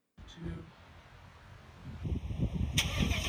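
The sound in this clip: A Ford F-150 Raptor pickup truck engine starting: a low rumble builds after a quieter stretch, then the engine catches with a loud, rough rev and a high whine near the end.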